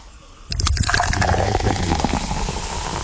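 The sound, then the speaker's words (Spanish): A cold Coca-Cola is opened and poured over a glass filled to the top with ice, starting abruptly and settling into a steady fizzing, gushing pour that continues to the end. “Hielo hasta arriba. Y la Coca-Cola bien fría. No cojo una Coca-Cola caliente. No. Y usted abre esa Coca-Cola. Y ya usted oye.”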